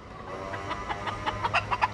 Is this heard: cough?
no